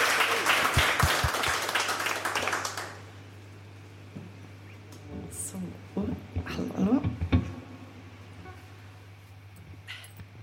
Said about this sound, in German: Also jetzt bitte nochmal einen donnernden Applaus